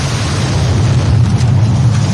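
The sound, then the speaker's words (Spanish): A car bomb explosion outside a shopping mall in Guayaquil, Ecuador, heard as a loud, sustained low rumbling roar without a clear single onset and with a dense, noisy texture throughout. “Fue la explosión que paralizó y estremeció al norte de Guayaquil el pasado 14 de octubre de 2025.”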